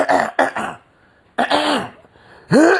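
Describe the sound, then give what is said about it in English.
Throat clearing in a few rough, voiced bursts: harsh, gravelly rasps that are loud and forceful, separated by short pauses. “Let me clear my throat.”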